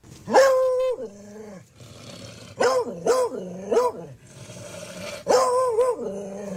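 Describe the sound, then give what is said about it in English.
An Australian terrier barking and yipping in several separate bursts, including a quick run of three in the middle; the barks are sharp and tonal, with quieter rumbling between them. “Well, he's an Australian terrier.”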